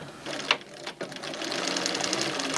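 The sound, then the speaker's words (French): A sewing machine stitching a zigzag along the edge of a hat, with the machine angled so the hat is not distorted: a couple of sharp clicks early on, then a fast, steady whir that runs to the end. “je vais mettre ma machine un petit peu de coin pour ne pas trop déformer le chapeau. Et puis, je vais mettre un zigzag.”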